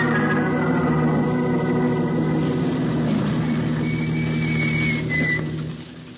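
A car engine idles with the motor kept running, a steady low rumbling drone with a faint higher whine that holds evenly and then fades toward the end.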